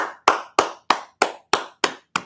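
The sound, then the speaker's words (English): Hands clap seven times, alone, in a slow, steady rhythm, each sharp, crisp slap ringing out briefly before the next. “That's a clap hand.”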